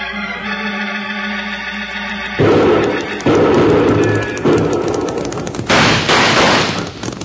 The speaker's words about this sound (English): Watch the rifle flashes. Now they've stopped shooting.